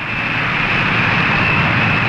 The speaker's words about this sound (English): Christen the Spirit of 76 taxis to a stop on the runway of the Peking Airport.